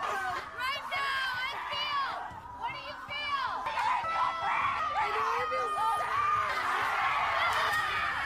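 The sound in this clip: A crowd of people screaming and shrieking together, many overlapping high voices running loud and continuous the whole way through, with brief laughter-like bursts mixed into the din.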